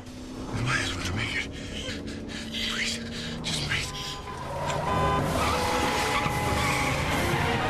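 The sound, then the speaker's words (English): A taxi cab swerves, skids and speeds away after narrowly avoiding another cab. Engine roar and tire noise run loud and continuous, swelling further in the second half. “The cab driver veers into the path of another cab, only just avoiding a collision.”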